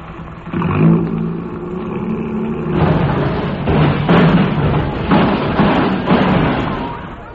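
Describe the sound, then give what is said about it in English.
A car engine starts and revs as the car drives off, a steady mid-pitched roar that swells and holds at a loud level. “Come on, let's get in the front seat and I'll drive.”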